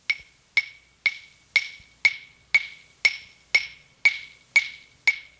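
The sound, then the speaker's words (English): Claves recorded on tape at 3 3/4 IPS: eleven sharp, bright wooden clicks struck at an even pace about half a second apart, each with a quick decay and silence between. “Here's the sound of clavis, recorded at 3 3/4 IPS.”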